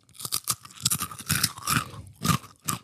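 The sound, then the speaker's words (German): Loud, dry crunches of someone biting and chewing crunchy crispbread come in many irregular bursts separated by brief pauses, with no talking. “Man könnte eine Knäckebrotpizza draus machen. Absolut. Jetzt müssen wir mal ein Stück probieren.”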